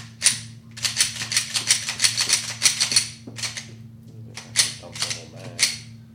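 Pistol shots fired from a threaded-barrel handgun at a shooting range: many sharp cracks in quick strings, separated by brief pauses, over a low steady hum.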